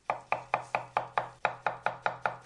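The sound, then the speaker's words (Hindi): A knife chops something on a kitchen cutting board in a quick, even rhythm of about a dozen sharp knocks, each with a brief wooden thud, quiet and alone with no talking. “ऐसा लग रहा है ना जैसे कोई रसोई घर में कटिंग बोर्ड पर कुछ काट रहा है।”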